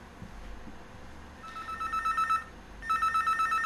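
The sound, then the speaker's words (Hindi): A telephone rings with an incoming call: two bursts of fast, warbling electronic ringing separated by a short gap, over a low background hiss. “लगातार call आती जा रही है। लगातार हमारे collar जो हैं हमारे साथ कनेक्ट होने का प्रयास कर रहे हैं।”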